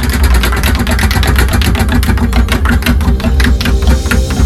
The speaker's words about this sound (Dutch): Hoor dat rad gaan.